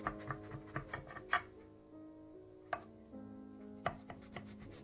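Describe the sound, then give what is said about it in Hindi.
A knife cuts food into square pieces with sharp, crisp strokes: a quick run of several chops, a pause, then a few more spaced cuts, each a short knock against the board. “इस तरह से आप चकोर pieces काट लें इसके।”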